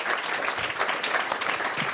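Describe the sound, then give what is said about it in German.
Audience applause at a literary reading by a newspaper columnist: many hands clapping in a steady, dense patter at a moderate level, unbroken by talk for the whole clip. “Danke für den Applaus, bitteschön.”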